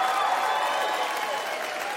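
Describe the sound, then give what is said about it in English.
A stand-up comedy audience applauds in a dense, continuous burst of clapping mixed with crowd noise. The sound stays fairly level and then eases slightly toward the end. “Come on, clap.”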